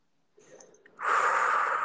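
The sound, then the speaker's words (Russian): A deep breath drawn in during a shared breathing exercise: a soft airy rustle first, then a loud, steady rush of inhaled air that holds until the end. “И еще один глубокий вдох вместе.”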